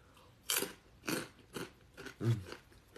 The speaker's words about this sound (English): I'm still eating these nasty Kapoom chips. Kapop chips. I'm still eating them because I don't want them to go to waste.